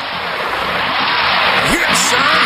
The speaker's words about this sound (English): You hear that? That is the sound. No, that is the sound of the wrecker. That is the sound of the tow truck. That is the sound of your car stuck in the snow and the tow truck is on its way.